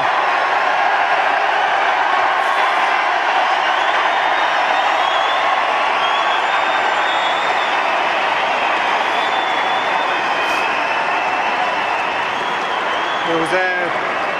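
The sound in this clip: A loud, unbroken crowd roar at a post-match rugby interview, a dense wash of cheering that holds steady for the whole stretch, with voices mixed into the din.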